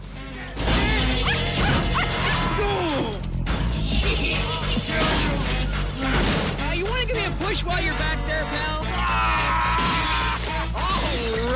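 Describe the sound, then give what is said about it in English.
A baseball bat smashes a car, with crashing and shattering glass in a dense, loud mix alongside a barking and whining dog. “The brute starts smashing Ace's car with a baseball bat.”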